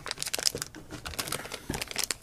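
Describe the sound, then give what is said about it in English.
Crinkly, crackling rustle of a foil collector's bag being torn open by hand; the bag has no pre-perforated tear notch. Many uneven crackles and rips follow one another across the whole clip at a moderate level. “tearing it open easier than you think. Because it's foil, and it doesn't have one of those little things on the side that they already pre-perforated.”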